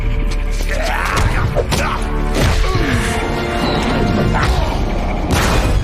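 Skylight glass smashes as someone crashes through it: a loud, dense burst of shattering and crashing that continues throughout, with several sharp impacts and clattering debris.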